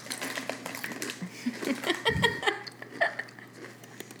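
Potato chips crunching as someone eats them, a dense run of crisp, irregular crackles and bites that stays at a moderate level throughout.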